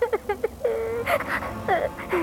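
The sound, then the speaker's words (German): A young orphan boy in a video game adventure cries while exploring a castle: a few short whimpering sobs lead into longer, wavering, wailing cries at moderate loudness. “Wir hören gerade das Weinen des Jungen, während er das Schloss erkundet, wo er trainiert werden soll, um den Tod seiner Eltern zu rächen.”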